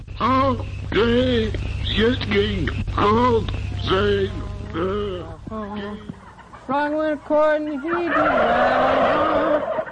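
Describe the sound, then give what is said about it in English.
Turkeys gobble in a pen holding about 400 birds while music is played to them: many loud, wavering gobbles and clucks overlap in quick bursts, continuous throughout. “sitting in a pen with 400 turkeys, which are all gobbling and stuff like that”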